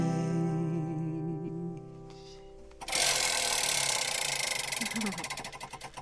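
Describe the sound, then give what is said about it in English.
Rapid ratcheting clicks from a spinning prize wheel called the Wheel of Eight, a loud, dense clatter lasting about three seconds after a stretch of tonal sound, with the clicks spacing out slightly toward the end as voices carry on. “I am now going to spin the Wheel of Eight.”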